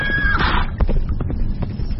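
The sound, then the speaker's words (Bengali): A horse being turned toward the jungle on a hunting ride, with hoof clip-clops and a brief whinny over steady noise. “উর সাহেব তৎক্ষণাৎ ঘোড়া জঙ্গলের দিকে ঘোরালেন, আমার তাকে অনুসরণ করা ছাড়া উপায় নেই।”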